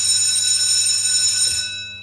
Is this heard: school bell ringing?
yes